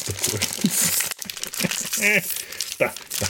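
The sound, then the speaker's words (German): Crinkly plastic packaging crackles and rustles continuously as it is worked open by hand, with a person talking over the crinkling. “Ich will das nicht zerreißen. Ich will das hier nur öffnen.”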